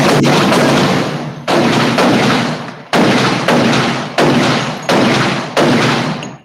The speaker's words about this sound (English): Crazy, shots fired.